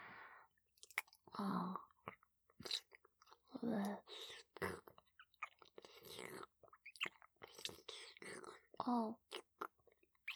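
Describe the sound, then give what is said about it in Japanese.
Wet licking and slurping mouth sounds come in many short, irregular bursts, soft and intimate, with brief silences between them. “まずは、ペロペロ舐めてあげる。”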